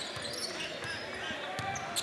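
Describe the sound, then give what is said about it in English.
A basketball dribbled on a court during a game: a few dull, evenly spaced thumps against steady background noise, with people talking over them. “Lost his dribble.”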